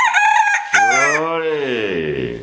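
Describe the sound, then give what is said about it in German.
A rooster crowing, a loud harmonic call that rises and then falls in pitch, preceded by a brief higher burst. “Das ist Balthasar, der Hahn von Superfan Clément d'Antibes, als Maskottchen der Trikolore anerkannt und auch als deren Orakel.”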